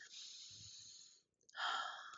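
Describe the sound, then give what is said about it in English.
Deep breaths taken during a guided confidence exercise with eyes closed: a long, airy hiss, a brief quiet gap, then a stronger breathy rush. It is faint and heard without any talk. “Close your eyes. And I want you to take a deep breath. Now, one more.”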